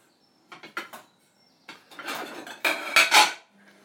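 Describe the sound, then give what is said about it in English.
Clattering dishes and cutlery as a bowl is grabbed in a kitchen: a few short knocks come first, then a longer, louder run of ceramic and metal clinks, with no talk. “I'm going to grab a bowl I can empty this lot into.”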